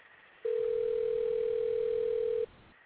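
A telephone ringing tone on an unanswered call: one steady, mid-pitched tone lasting about two seconds, alone, with a faint hiss before and after.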